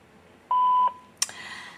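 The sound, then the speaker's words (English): An answering machine sounds a single steady, mid-high beep lasting under half a second, followed by a brief click and faint hiss. “please leave your name and telephone number at the beep, including area code”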